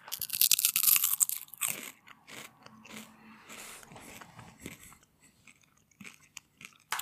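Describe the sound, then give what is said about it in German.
Crunchy seaweed snack being bitten and chewed: loud, sharp crunches at first, then quieter, irregular chewing crackles with short pauses. “Seaweed with Real Crunch. Also crunchy sehen die aus.”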